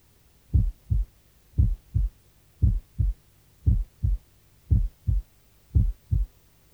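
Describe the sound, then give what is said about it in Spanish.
A normal heartbeat with a single second heart sound, auscultated at the left lateral sternal border: six even lub-dub pairs of low, dull thumps in a steady rhythm over near silence. “Borde external lateral izquierdo, segundo ruido único.”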